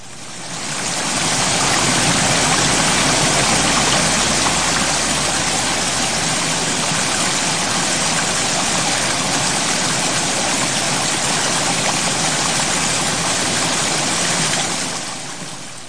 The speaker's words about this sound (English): I thought I'd play a little water to cool us down.